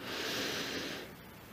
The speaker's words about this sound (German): Atme nun ganz tief ein durch die Nase